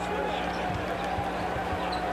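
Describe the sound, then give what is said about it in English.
A basketball is dribbled on a court during a game, several dull, low thumps bouncing in a loose rhythm beneath steady crowd noise and a voice talking over them. “Harrison with a lot of dribbling, a lot of driving, and an underhand scoop on the baseline for two.”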